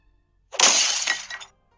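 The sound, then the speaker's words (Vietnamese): A teapot thrown and smashing, one sharp burst of shattering ceramic lasting about a second, alone. “Ấm trà bị Lâm Tam ném vỡ tan.”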